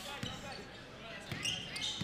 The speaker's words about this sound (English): Souls against Swiderski, top of the key. Now dribbling down the right side.